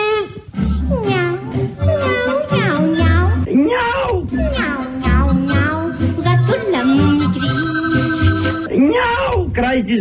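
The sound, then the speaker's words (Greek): Meowing of a cat being petted: loud, repeated high calls that waver and bend in pitch, running almost without pause, with a steady ringing tone near the end. “Πώς κάνει η γατούλα όταν τη χαϊδεύεις?”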